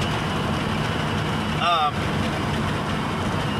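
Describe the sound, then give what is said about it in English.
Steady, loud road and engine noise from a car coming off the interstate while its driver tries to pick up speed, with a brief tonal chirp near the middle. “I gotta get some speed here. car coming off the interstate.”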